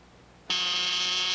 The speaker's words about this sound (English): In the vestibule below, the blonde man presses one of the buzzers along a row of mailboxes.